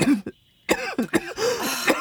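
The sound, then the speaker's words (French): Coughing from a person: a couple of harsh, raspy coughs, a brief silence, then a cluster of rough hacking coughs and throaty bursts in quick succession. “Vous toussez beaucoup. Je tousse.”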